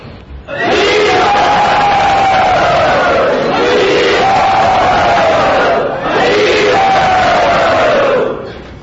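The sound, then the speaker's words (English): Crowd loudly cheering to welcome a guest: three long, sustained roars of massed voices, each shout sliding downward in pitch before the next begins. “So everyone, very loudly, let us welcome him.”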